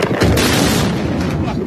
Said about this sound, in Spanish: Este es el sonido de los ataques cruzados de este fin de semana. Estados Unidos e Irán no bajan la intensidad de los bombardeos.